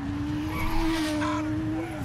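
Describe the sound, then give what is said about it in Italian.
Racing engines of cars and motorbikes speeding past at the Misano Grand Prix, a sustained high whining drone with small pitch shifts, holding at a steady, moderate level throughout. “Gran Premio di Misano. Auto, moto che passano veloci.”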